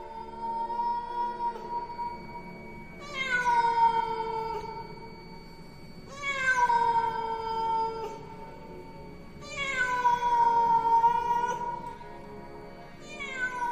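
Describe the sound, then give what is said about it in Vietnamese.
A large black cat meowing at night lets out four long, eerie meows evenly spaced a few seconds apart. Each is loud and drawn out, its pitch bending downward, over a steady humming tone. “Nhưng mà nghe cái tiếng mèo cây giữa đêm vắng tối om om này thì ghê chết mẹ ra.”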